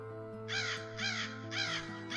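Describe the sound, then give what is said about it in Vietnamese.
A crow caws from a treetop, several harsh, rasping calls in an even rhythm, loud against a steady low drone. “Bỗng trên một ngọn cây gần đó có tiếng quạ ré lên, làm cho Đương giật mình.”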